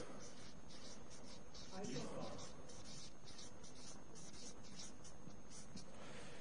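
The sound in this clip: Handwriting on a page, a pen or pencil scratching out a word as it is spelled, gives a dry, continuous rubbing scratch that stays soft and steady throughout.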